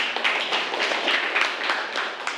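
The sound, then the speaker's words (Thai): Classroom students clap for a classmate, producing a steady, dense patter of many hands at even loudness across the whole stretch, with no clear talking. “โอเคนะครับปรบมือให้เพื่อนเลยนะครับ”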